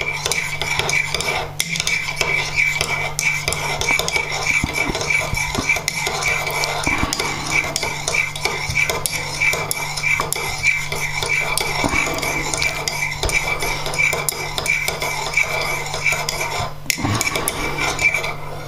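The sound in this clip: A spoon stirring instant coffee, a steady, continuous scraping and tinkling that holds an even level throughout, broken by a couple of sharper clinks.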